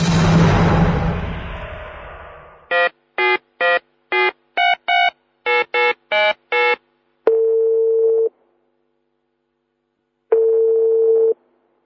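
Telephone dialing tones as a call is placed: a burst of noise, then a rapid run of short keypad beeps, followed by two long, steady ringing tones separated by a pause of silence.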